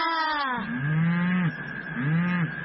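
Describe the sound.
A cow moos: a long, strongly harmonic call that starts high and slides sharply down in pitch, followed by two lower, drawn-out moos, with no talk.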